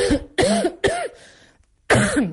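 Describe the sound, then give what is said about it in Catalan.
A woman still coughing from a recent illness that put her in hospital gives three harsh coughs in quick succession, falls silent briefly, then coughs once more. “un dels meus símptomes encara és la tos. Ho podem comprovar en directe. Es pot observar.”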